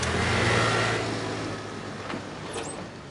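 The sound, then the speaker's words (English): A car peels out and accelerates away with a loud, broad engine and tyre roar that is strongest at the start, then steadily fades as the vehicle pulls off. No one speaks. “I'll drive. Grace peels out, with Guy barely seated.”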